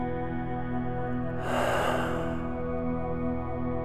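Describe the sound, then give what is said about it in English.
A single breath out at the end of a guided breathing meditation, a soft, airy rush lasting under a second that rises over a steady sustained tone. “Let's take one final breath in, gathering all of our sustainable learning, and breathe out.”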